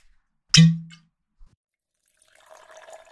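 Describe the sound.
A bottle of water is cracked open with one sharp, loud pop that rings briefly. A soft tick follows, then after a pause comes a run of light, bubbly pouring.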